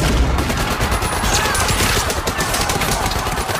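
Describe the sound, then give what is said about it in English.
Machine gun fire from a film scene, with gunmen shooting from a theater box: a loud, dense, continuous rattle of rapid shots running unbroken through the whole stretch. “the bastards come through Hitler's box and open fire with their machine guns.”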